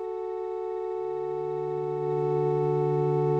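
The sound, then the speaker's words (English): A buzzy square-wave synthesizer lead with an organ-like tone holds one steady note, and a lower sustained note joins after about a second. The sound grows slightly louder midway and plays alone throughout. “The organ sounds more just like a square lead to me, a square wave, which is technical jumbo for buzzy sounding wave. So the song starts with this sound”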